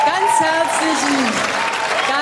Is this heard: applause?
yes